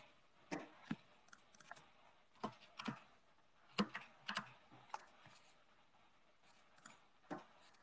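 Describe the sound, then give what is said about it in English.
Soft keyboard typing as a message goes into a live chat: many faint, irregular key clicks in short clusters separated by brief pauses. “Oh, what can I do here? Live chat. I'll type it in here.”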